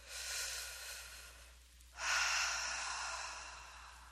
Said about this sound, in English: Take a breath.